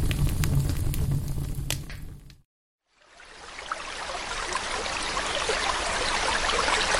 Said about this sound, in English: This is the sound of water.